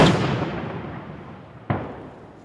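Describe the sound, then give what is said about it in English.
Outgoing artillery fire in a war zone, with a heavy blast at the start whose rumbling roar slowly fades, then a second sharp, booming report followed by another decaying tail. “Outgoing artillery pursues an army once considered one of the most powerful on Earth.”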